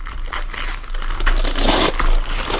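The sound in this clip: Tape and wrapping are torn off a polka-dot gift box made from a beer box, giving loud, continuous ripping and crinkling with a few sharper tearing bursts throughout.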